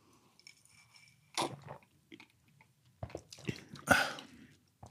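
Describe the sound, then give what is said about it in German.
Someone takes a big gulp of a mate drink, with wet mouth and swallowing noises in short bursts, one cluster early and a louder, busier run of gulps later on. “Nimmst einen großen Schluck. Ja, ich auch.”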